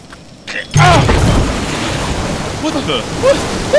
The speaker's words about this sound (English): We're sinking! Whoops. Well, I didn't see this coming. My island! My beautiful island! Sinking!